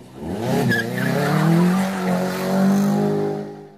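Car tires squealing loudly in one long screech lasting several seconds, made of whining tones that waver and slide in pitch, with no talk.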